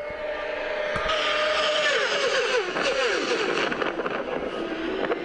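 Race engines roar at the Ulster Grand Prix road race, a loud, continuous rush of engine noise and wind buffeting, with engine notes sweeping downward in pitch as machines pass.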